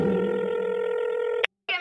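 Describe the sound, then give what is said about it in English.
Touch-tone beeps from a telephone being dialed: one long, steady electronic tone with bright overtones, a brief silence, then the start of a second tone. “Dialing the number. Boop, boop, boop, boop, boop, boop, boop.”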